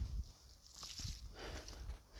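Faint footsteps of someone walking in a forest: soft, low thuds fall in a slow, steady rhythm beneath a quiet hiss of outdoor air.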